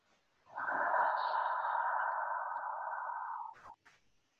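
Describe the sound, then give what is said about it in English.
A single slow, deep breath during a guided breathing exercise, a soft airy rush held steadily for about three seconds before cutting off. “So on the inhale, we're breathing in and we're inviting connection. And then with the exhale, we're letting go of the outcome.”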